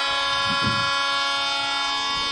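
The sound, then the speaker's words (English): A train horn blares at a football game after a penalty call. One loud, steady, multi-tone chord is held for the whole clip, with a faint low rumble underneath. “The train horn gives you a good idea who it's against.”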